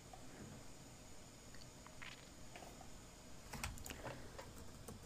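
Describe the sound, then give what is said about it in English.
Faint typing on a computer keyboard while searching Wikipedia: a few quick bursts of soft keystroke clicks over a steady background hiss. “Wikipedia is not being very helpful. We're going to type Wookiee and Boba Fett.”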